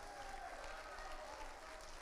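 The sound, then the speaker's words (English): Church audience clapping their hands together in a sustained, steady wash of applause, loud and continuous with no break, a crowd of many hands blending into dense noise. “Get up on your feet. Put your hand together. Make the Spirit of God welcome in here.”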